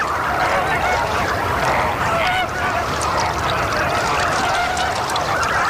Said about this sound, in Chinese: 一只大红鹳成鸟在幼鸟群中寻找它心爱的孩子